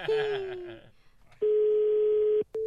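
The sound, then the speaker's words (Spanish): A telephone call to a flower shop is placed. A steady, low, loud tone holds for about a second, then a second tone begins, after a brief voice at the start. “Pues vamos a marcar una florería.”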